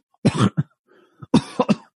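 Coughing in two close clusters: a heavy hacking burst with a short follow-up, then after a pause a few more sharp, raspy coughs, loud against silence.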